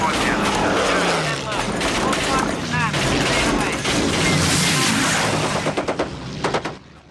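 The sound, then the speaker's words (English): Machine-gun fire rattles from a bomber's ball turret during an aerial fight with a German plane. It is a loud, dense, unbroken stream of shots that breaks into a few separate bursts just before it stops. “fires from the ball turret. A German plane is heading straight for the Memphis Belle.”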